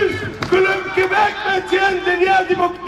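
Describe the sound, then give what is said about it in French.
A crowd of protesters at a Montreal demonstration in solidarity with Palestinians shouts loudly in unison, and their chanted voices keep up a sustained, rhythmic roar. “Face aux millions de déplacés, aux dizaines de milliers de morts et de blessés, des Montréalais continuent de crier leur indignation.”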